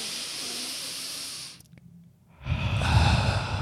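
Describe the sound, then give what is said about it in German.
Deep breath drawn in through the nose as a nausea-easing breathing exercise: a long, steady breathy hiss, a short near-silent pause, then a second, louder breathy rush, with no talk. “Musst du halt ganz tief durch die Nase einatmen, ungefähr so.”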